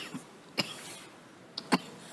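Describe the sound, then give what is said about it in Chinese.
Short, faint coughs from a person: two brief sharp bursts with a smaller one just before the second. “咳了一下，痒痒。 讲到马英九就咳了一下”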